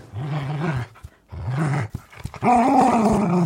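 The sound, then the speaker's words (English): A dog growls playfully while tugging at one end of a worn toy squirrel, giving three low, throaty rumbling bursts separated by short pauses, the last one longer and louder. “And I think that is the sound of dog joy.”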